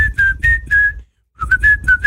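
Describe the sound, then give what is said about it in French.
A person whistles a short run of steady, clear, high notes, then pauses briefly and whistles another run of slightly wavering notes, with no talking. “C'est la façon dont tu mets la bouche qui marche mieux, en fait. Siffler.”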